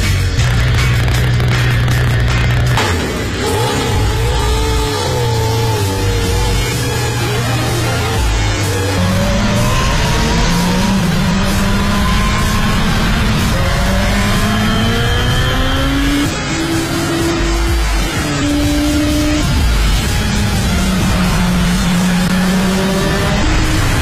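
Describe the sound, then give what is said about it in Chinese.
A race car's engine roars and accelerates around a racetrack, heard from the passenger seat. The engine note climbs in pitch again and again through successive gear changes, loud and continuous throughout. “游客来到这里需要经过专业培训才能开着赛车驰骋赛道，但也可以坐在副驾驶的位置上感受速度与激情。”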